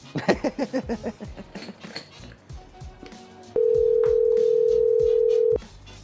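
A telephone ringing unanswered on a call: a rapid run of pulsing electronic tones that fades over the first couple of seconds, followed by a single steady electronic tone held for about two seconds before cutting off.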